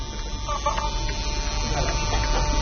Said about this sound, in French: Alors ça, c'est un appareil ouvert dont on entend complètement le bruit. Le le couvercle empêche le bruit de sortir.